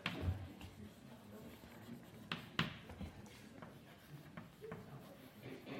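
Scratchy writing strokes on a board, a few short bursts of rubbing and scraping separated by brief pauses, faint and alone with no talk over it.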